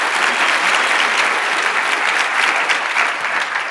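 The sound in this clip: Audience applause greets a guest speaker at a workplace coaching and culture event, a steady, dense wash of many hands clapping that holds at an even, loud level for the whole stretch with no voices over it.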